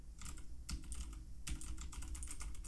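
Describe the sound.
Typing on a Razer keyboard with green switches gives crisp, clicky keystrokes in three quick bursts, faint over a low steady hum.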